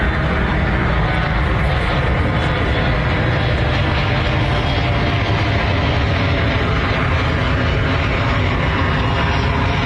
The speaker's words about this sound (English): it turns out doing a press conference in the landing zone of SeaTac Airport, probably not a great idea